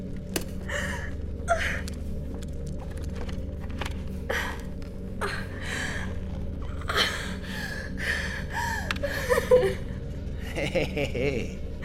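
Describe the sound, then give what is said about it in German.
Heavy, panting breaths from an exhausted army recruit in a war against Mars, just after his helmet comes off. The breath bursts are irregular and rasping, set over a steady low mechanical drone. “Hey, komm runter, Rekrut. Wenn du weiter so schnaufst, kippst du gleich um.”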